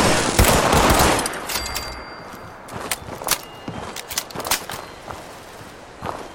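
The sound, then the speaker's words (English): Gunfire in a video game: a loud burst of rapid shots at the start, then scattered sharp cracks and short volleys in an irregular rhythm, with no talk. “Lots of shooting.”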